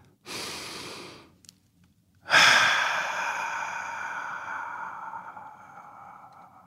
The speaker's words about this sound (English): If you're ready, let's take a deep breath.